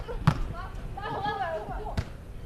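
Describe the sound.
Volleyball being served and played during a match: two sharp, hard ball strikes about 1.7 seconds apart, with a voice talking between them.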